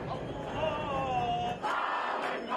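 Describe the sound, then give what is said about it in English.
Thousands of Palestinian and Jewish citizens of Israel protest the nation-state law in Tel Aviv's Rabin Square, a loud, unbroken roar of massed voices with shouting rising out of it throughout. “what you're hearing here is the sound of thousands of Palestinian and Jewish citizens of Israel gathered in Tel Aviv's Rabin Square, protesting this divisive law.”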